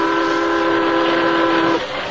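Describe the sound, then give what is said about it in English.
A train approaches on the tracks with a loud, sustained, chord-like whistle held steadily over a rumbling bed of noise, cutting off shortly before the end. “As you say, the train isn't slowing down at all. We've got to make it stop somehow.”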